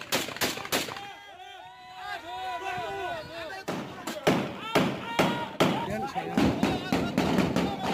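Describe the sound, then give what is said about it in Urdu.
Gunfire and explosions from Turkish army air and ground attacks in northern Syria: many sharp cracks and heavy booms in an irregular series, loud throughout, with voices heard among the blasts. “یہ آوازیں فضائی اور زمینی حملوں کی ہیں جو ترک فوج نے موسم کی بہتر صورتحال کا فائدہ اٹھاتے ہوئے شمالی شام میں دوبارہ شروع کیے تھے۔”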